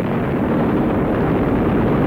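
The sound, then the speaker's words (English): Molten lava escaping from a hole, as a sound effect: a dense, continuous roaring rumble with a hissing edge, holding steady and loud for about two seconds with no voices. “Molten lava escaping from my escape hole.”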